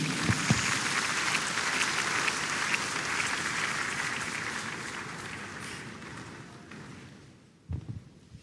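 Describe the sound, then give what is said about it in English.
A church audience applauds in a dense, steady patter of many hands. The clapping gradually thins and fades toward the end, with a few last claps. “Let's give the Lord a big hand.”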